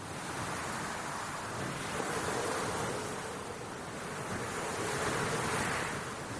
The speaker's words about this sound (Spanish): Valian camina entre las dunas azotadas por el viento.